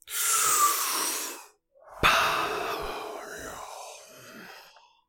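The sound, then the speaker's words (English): A big, deep breath: a long, airy inhale, a brief silent pause, then a long, slow exhale that begins with a sharp burst and gradually fades. “That big, deep breath really helped.”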